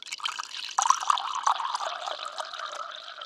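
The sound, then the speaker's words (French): Water pours into a glass as a steady, bright trickle with a few fuller splashing surges partway through, moderately loud and with no voices. “Elle se lève pour prendre un verre d'eau.”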